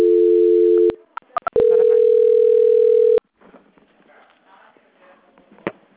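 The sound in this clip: Electronic telephone tones as a call is transferred. A loud, steady flat tone is followed by a few sharp clicks, then a second steady tone lasting about a second and a half, and finally faint line noise.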